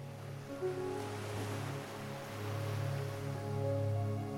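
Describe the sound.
Ocean waves breaking on a shore, a soft, continuous rush of surf that rises and falls in slow, gentle swells with no voices.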